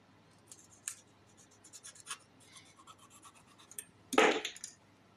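A blade scratches and scrapes while a package is cut open from the top during a drug-enforcement inspection: a string of short, faint rasping strokes, then one louder, harsher scraping burst near the end.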